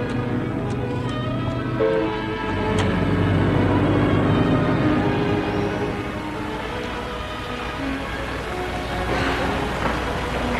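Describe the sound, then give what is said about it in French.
A train arrives at the Gare de Lyon station in Paris: a continuous low rumble of wheels and carriages rolls on steadily, with a few faint clanks along the way. “Ils arrivent à la gare de Lyon.”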